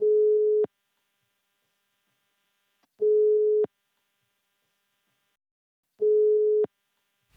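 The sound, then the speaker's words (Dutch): Ringback tone heard while placing a phone call to someone: three steady mid-pitched tone bursts, each under a second long, repeating evenly every few seconds with silence between, and no talk. “Ja, we kunnen hem nu bellen.”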